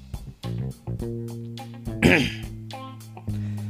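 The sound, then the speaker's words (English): A person clears phlegm from the throat with one short, rough, guttural burst midway through ongoing talk. “I'm getting this phlegm. A little bit of phlegm just came up at a weird time.”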